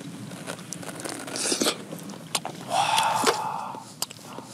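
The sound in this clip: Crunchy chewing of food dipped in sesame-oil sauce: moist biting and grinding with a few sharper crackles, steady and fairly loud, with no talk.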